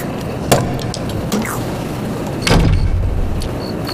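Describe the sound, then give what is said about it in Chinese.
A door is shut, heard as a few short knocks and thumps against a steady low background, the heaviest thud coming near the end. “把门关上。”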